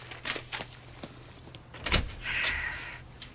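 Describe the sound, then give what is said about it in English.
A door is opened, with a few light clicks and knocks, then a louder thump followed by a sustained rubbing, sliding sound before it settles. “Sarah gathers up some papers, then opens the door to Frank.”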